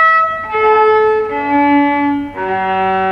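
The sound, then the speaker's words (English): A viola played on its normal strings, not the cello strings fitted to the instrument, gives a few sustained bowed notes that change pitch, each tone rich in harmonics and held at a steady, full volume. “so like the normal strings of a viola would sound like this.”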